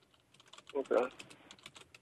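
Fast typing on a computer keyboard while a search term is entered: many light, irregular key clicks, faint and close together, with a slightly louder cluster of strokes near the middle.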